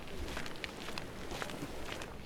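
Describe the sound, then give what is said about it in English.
Soft footsteps of a woman walking elegantly on beach sand at sunset during a commercial film shoot: several faint, muffled steps in a slow, even rhythm over a low background hiss. “A female model is walking very elegantly, one foot in front of the other, almost not touching the sand.”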